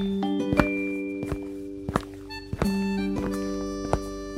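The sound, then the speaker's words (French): Boots thud in a few heavy, uneven footfalls on a floor, with loud knocking steps standing out above a steady held tone underneath. “Se demande-t-il en entendant le bruit des bottes sur le sol.”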